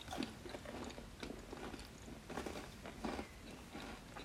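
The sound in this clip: Biting and chewing a warmed chocolate cookie: a series of soft, crisp crunches and wet chewing sounds at an uneven rhythm, faint and with no talking.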